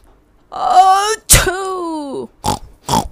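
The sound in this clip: A voice imitates a sneeze: a drawn-out voiced build-up, then a sharp breathy burst and a falling voiced tail, followed by two short breathy puffs.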